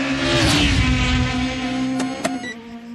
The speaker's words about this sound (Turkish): Beyaz bir taksi. Saatte 306 kilometreyle gidiyor.